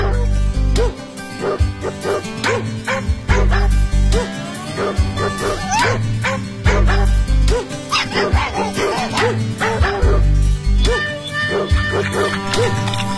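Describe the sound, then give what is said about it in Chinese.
A small, playful spotted puppy yips, barks and whimpers over and over, with many sharp, high-pitched calls packed closely together throughout. “点点是一只非常调皮的小花狗”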